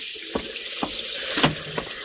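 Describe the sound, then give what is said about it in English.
Rain falls at night with wind and sea, a dense, steady hiss that fills the whole clip, with a few soft thuds rising briefly above it. “This time it was night and rain, and the sounds of desolation that only the wind and the sea can shape.”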